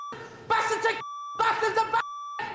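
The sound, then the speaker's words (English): A steady high-pitched censor beep sounds three times over a man's swearing during a football halftime team talk, alternating with bursts of his loud, agitated speech. “It's just beep, beep, beep, because he's swearing, yeah.”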